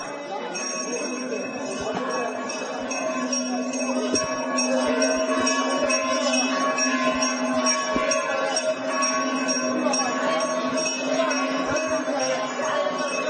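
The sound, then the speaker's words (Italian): A temple bell in India rings out with sustained, resonant metallic tones that hold steady and layered across the whole stretch, loud and alone. “si udì l'improvviso fragore della campana di un tempio.”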